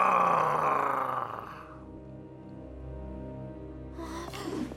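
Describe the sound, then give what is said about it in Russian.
An animal growls at a mother bear: a loud, rough roar fills the first second and a half, then eases into quieter, sustained low tones. “Маркуси начинает рычать в сторону медведицы.”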